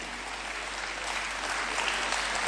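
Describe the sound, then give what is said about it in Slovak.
Sustained crowd applause thanking event organizers, coordinators and volunteers: dense, even clapping that holds at a steady, moderate level throughout with no pause. “A to si zaslúži takisto jeden veľký potlesk pre všetkých organizátorov, koordinátorov a dobrovoľníkov.”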